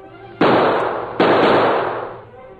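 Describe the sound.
Two gunshots fired in a trick shooting contest, each a sudden loud crack followed by a long fading tail, the second coming under a second after the first, with no voices.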